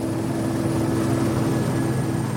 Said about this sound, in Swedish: När Matthew en stund senare kravlar i säkerhet på helikoptern så ser han det skummande havet nedanför.